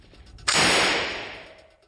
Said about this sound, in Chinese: 这是经典的 MP40 式德国冲锋枪。